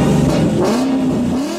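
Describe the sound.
A Ford car engine revving: a loud, continuous roar whose pitch climbs and then holds steady, with no talk over it.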